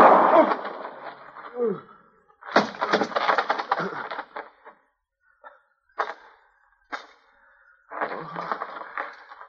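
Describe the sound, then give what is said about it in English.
A gunshot goes off in a radio western drama during a struggle over the gun, the trigger pulled by accident. Sharp, abrupt cracks stand out between bursts of voices. “My chest. Hit me in the chest. I couldn't get your finger off the trigger.”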